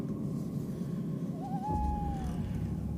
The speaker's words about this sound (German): und höchstens noch Käuzchen auf den Bäumen.